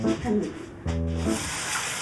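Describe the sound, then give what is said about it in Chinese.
Tap water running as a dirty rag is rinsed, a steady hissing splash with a person speaking over it. “哎呦，我让你洗手，你怎么洗上抹布了？ 这抹布有点脏，我给它投一下。”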